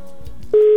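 Telephone tone on a call that goes unanswered: after a short stretch of low, muffled line noise, a single loud, steady electronic tone sounds and holds to the end.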